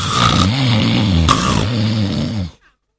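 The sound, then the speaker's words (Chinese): A storyteller's voice imitates the loud snoring of a sleeping man: one sustained, rasping, droning snore with a wavering low pitch that fills about two and a half seconds, then stops abruptly into silence. “程大爷大松心，嘿，这呼噜打得震天响”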